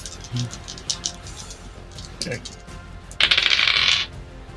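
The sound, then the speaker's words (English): Dice tumble across a table in a tabletop game, a quick rattling clatter lasting under a second, preceded by a few lighter knocks and some voices. “Oh, yeah! I like that sound. that's a 6 plus 5 plus 2, so that's a 13 on the dice.”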